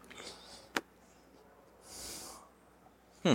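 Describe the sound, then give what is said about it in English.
A person exhales cigar smoke through the nose, faint. A sharp snort comes first, then a soft, airy hiss of breath, and a louder nasal burst closes it. “But instead of exhaling through your mouth, you're going to breathe through your nose. So something like this.”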